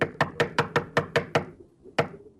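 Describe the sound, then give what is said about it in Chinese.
Knocking at a door, eight sharp raps: seven in a quick, even run, then a pause and a single final knock, with nothing else heard. “门口响起了敲门声”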